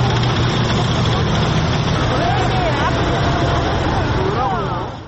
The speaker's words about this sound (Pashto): په پلازمینه سیول کې له باران سره سره سرتیری پوځي وسایت او درانی وسلې د نندارې لپاره تیر شول چې جنگي ټانکونه، درانه زغروال وسایت